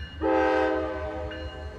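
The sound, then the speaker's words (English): A long coal train hauling coal out of southern West Virginia sounds a single sustained horn blast of steady pitch. The blast begins after a brief moment of low rumble and fades slightly over a continuous deep rolling rumble. “You will see coal trains, 100, 150 cars long, hauling coal steadily out of southern West Virginia.”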